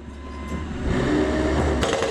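An excavator's hydraulic attachment runs during demolition work, a steady, broad mechanical drone over a low engine rumble that holds level throughout.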